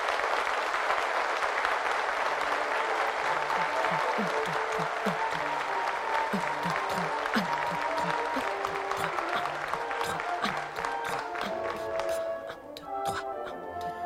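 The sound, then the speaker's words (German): Dense, steady applause from a crowd, a continuous patter of many hands clapping like rain on a roof. It holds at full strength for most of the stretch and thins slightly toward the end. “Und Applaus, der wie Regen fällt. Applaus, der aufs Dach klatscht.”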